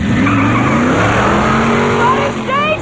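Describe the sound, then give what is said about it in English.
A car drives away down an alley with a loud engine roar and squealing tires. The noise stays dense and steady from start to finish, and there is a higher squeal near the end. “Litter blows around the alley as Blade drives away.”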